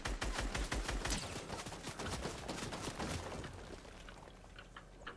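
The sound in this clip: Rapid gunfire in a video game: a dense, crackling stream of many sharp shots, fairly faint, running continuously and easing off slightly toward the end.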